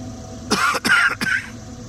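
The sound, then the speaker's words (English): Someone coughs into their shoulder: three short, rough, muffled coughs in quick succession, fairly loud over a quiet, faintly humming background. “I coughed a little into my shoulder.”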